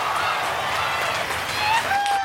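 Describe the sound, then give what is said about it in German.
Audience applause after a performance, a steady wash of many hands clapping at an even level throughout, with a few brief tonal cries rising over it near the end. “Also erstmal einen dicken, fetten Applaus für euch.”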